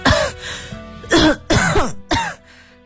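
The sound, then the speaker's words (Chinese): Hard, deliberate coughing from a frightened person, four harsh throaty bursts separated by short pauses. “孙刘花拼命咳嗽着，既是给阁楼上的苏峰塔发信号，又是缓解自己的恐慌。”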